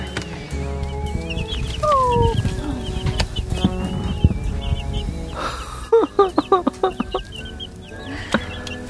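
A little chick cheeps in rapid runs of short, high chirps, loudest toward the end, with deeper fowl clucking and a busy, steady background underneath.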